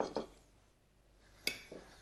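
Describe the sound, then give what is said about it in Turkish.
An ordinary table knife, not very sharp, cuts a piece of soft zucchini and gives a few short, light clicks and taps against the surface, with a quiet pause in the middle. “Bu bıçak çok keskin bir bıçak değil sevgili seyirciler. Normal evimizde olan çatal bir bıçağımız. Şimdi şöyle ben bir parça kesiyorum.”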